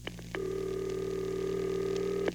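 Telephone tones from dialing a number to reach a recorded political message line: a couple of short tone blips, then one steady tone lasting about two seconds that ends with a click and a final brief blip.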